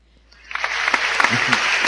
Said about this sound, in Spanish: aplaudamos entre todos a ver si aparece